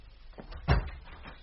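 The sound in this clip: A front door being opened, heard as one soft, brief clunk in the middle of an otherwise faint, quiet stretch.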